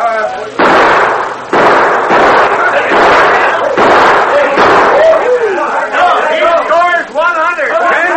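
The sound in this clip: Gunshots fired in a shooting contest: a few sharp, loud blasts at the start with ringing tails, followed by people talking.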